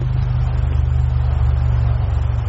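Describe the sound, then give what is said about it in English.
Harley-Davidson motorcycle engine producing a loud, low, throbbing rumble that holds at a steady pitch and volume throughout. “Hey, but you got Harley Davidson's, don't you know?”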